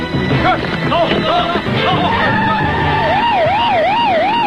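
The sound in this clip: Police car sirens, with voices and street noise in the opening seconds, then a loud siren wailing up and down in steady repeating cycles that dominate the rest.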